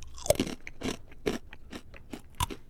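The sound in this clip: Crisp, dry crunches as someone bites into and chews a crunchy banana snack: a rapid series of sharp, uneven cracks at moderate loudness, with no talking.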